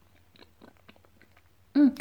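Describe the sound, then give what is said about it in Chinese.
Chewing fruit from a fruit platter: faint, soft, wet clicks and crunches spread over a couple of seconds, ending with a short, louder voiced hum. “好甜哦，这水果真好吃。”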